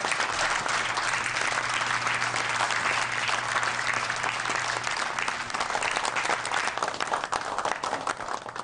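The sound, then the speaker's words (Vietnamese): Audience applause after a presentation: dense, continuous clapping that holds loud and steady for about nine seconds, with no talk over it. “Mọi người vỗ tay lớn lên đi nào.”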